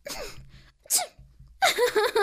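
A loud, sharp sneeze from a character lying on a bed in a forest, preceded by breathy vocal sounds and followed by several strong voiced bursts.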